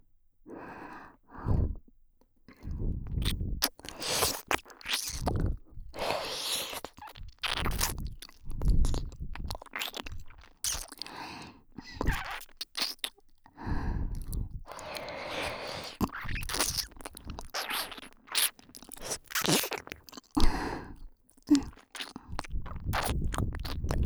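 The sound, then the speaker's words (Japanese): Close-up ear licking: many wet mouth clicks, smacks and soft breaths come in irregular bursts, some loud and some faint, continuing throughout. “お耳も舐めさせていただきますね。”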